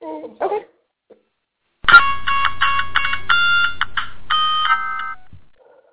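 An electronic ringtone signals an incoming telephone call. Bright, tonal notes step through a short melody for about three seconds over a low buzz, after a brief faint sound at the start.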